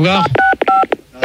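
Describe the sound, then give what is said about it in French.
Telephone keypad tones played as a melody: a quick run of short, bright two-tone beeps that form a tune, with people talking over them. “ils ont des téléphones, là, ils ont qu'à essayer de nous faire un morceau avec leur téléphone.”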